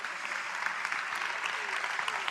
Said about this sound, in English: Say one last yes and give Him a clap offering, please.